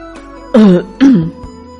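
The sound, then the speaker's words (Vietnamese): Two short, forceful coughs from a person, each a loud burst about half a second apart with a rough, throaty voiced edge, heard alone with no other talk. “Triệu Phổ ho hai tiếng”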